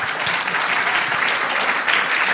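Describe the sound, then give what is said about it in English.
Audience applause for the comedy duo the Sklar Brothers: dense, steady clapping from many hands, sustained at an even level. “Give it up for the Sklar brothers.”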